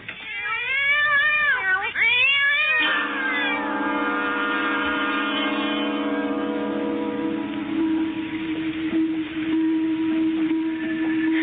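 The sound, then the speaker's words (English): A cat gives a long, wavering meow with sliding pitch, then the cry gives way to a steady tonal hum that continues to the end. “What's that? Another cat.”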